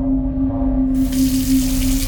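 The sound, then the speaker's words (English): Water runs from a tap into a sink on a bench, a steady rushing splash over a low electrical hum that becomes brighter and fuller after about a second. “he saw a girl with a ponytail who appeared to be washing something in the sink on one of the benches”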